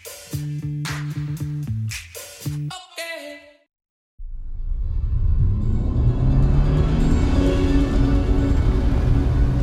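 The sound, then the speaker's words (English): A car driving fast along a winding dirt road, a loud, steady roaring rumble lasting several seconds after a short passage of music and a brief silence. “I'm driving, fast. My eyes are pinned to an ever-winding dirt road.”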